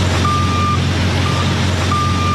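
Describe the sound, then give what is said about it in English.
A 70-foot truck rig gives three high, steady reversing beeps over a loud, constant engine rumble. “Every day, these 70-foot rigs are on the move, but finding a place to stop safely at night is another story.”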